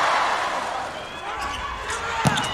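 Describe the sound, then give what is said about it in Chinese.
Volleyball serve during a match between Iran and Japan: one short, sharp slap of hand on ball stands briefly above a steady wash of crowd roar. “大冢达宣的发球”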